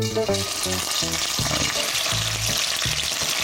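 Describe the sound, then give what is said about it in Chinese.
Stinky tofu frying in oil in a hot pan, a steady, crackling sizzle that runs through the whole clip with soft musical notes underneath. “第二步，臭豆腐的煎制一定是热锅凉油，”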